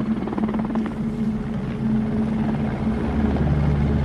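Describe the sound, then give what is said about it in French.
French military helicopters landing in Rwanda, a steady, fairly loud low thudding rotor and engine drone throughout, with no voices. “Les tueurs savent qu'ils ne doivent pas attirer l'attention des militaires français dont les hélicoptères se posent à Gishita.”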